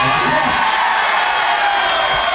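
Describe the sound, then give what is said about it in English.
An audience at a live trivia-style comedy show murmurs and cheers, a dense, steady crowd noise with scattered shouts mixed in. “Everybody in the audience is murmuring.”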